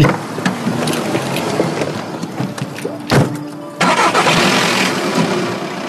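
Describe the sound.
A green sports car's engine starts: a sharp thunk, then the engine catches and settles into a steady, loud running roar.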